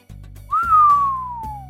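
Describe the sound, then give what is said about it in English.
A person whistles to mimic a slow whistle: one clear tone that rises briefly, then glides steadily downward for over a second, over a low, steady background hum. “slow whistle kind of thing”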